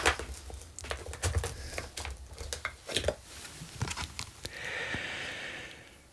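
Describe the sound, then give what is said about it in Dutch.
Playing cards are handled and one is drawn from a deck during a question game. Many quick, crisp flicks and taps come first, then a longer soft sliding swish. “Trek nog een kaart.”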